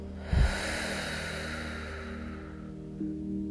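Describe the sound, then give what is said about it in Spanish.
A deep breath in through the nose during a guided relaxation exercise: a sharp sniff, then a long soft airy breath that fades, with a faint second breath starting near the end. “respira profundamente por la nariz y al soltar el aire suelta todas las tensiones y preocupaciones que traigas contigo.”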